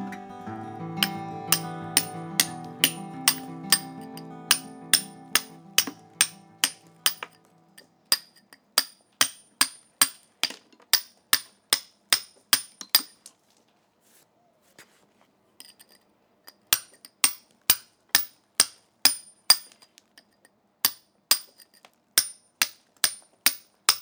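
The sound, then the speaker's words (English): A mallet strikes a chisel in fine work, giving many sharp, bright taps in a steady rhythm. A soft tonal hum sits under the first strikes, and the tapping pauses briefly partway through before resuming. “for the finer work, it's back to the mallet and chisel.”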